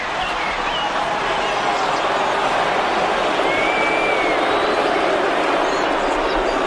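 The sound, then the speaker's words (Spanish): A crowd in the Hippodrome of Constantinople, split into Green and Blue factions, roars angrily at Emperor Justinian. The dense, continuous clamour of many voices stays loud and unbroken throughout. “Y el público reacciona de forma visceral ante la presencia de Justiniano. Ciertamente, las facciones verdes y azules demuestran una agresividad nunca antes vista en el hipódromo de Constantinopla.”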